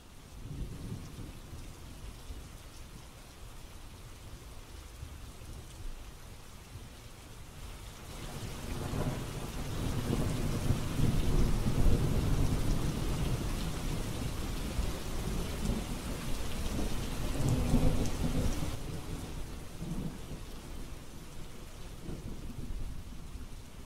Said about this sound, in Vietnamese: mà tại sao lại có mưa rào kèm sấm sét đùng đùng như thế chứ?